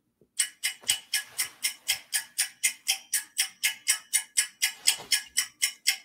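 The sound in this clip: A clock ticks in a steady, even rhythm, giving many crisp, evenly spaced ticks at about three per second with no other sound.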